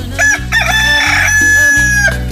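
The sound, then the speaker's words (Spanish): A rooster crows loudly in one long, drawn-out call lasting about two seconds, its harsh, ringing voice holding steady above a low, continuous hum. “Mira nada más, qué chulo canta mi gallo. Está muy contento de estar con ustedes. ¡Qué bonito canta mi gallo!”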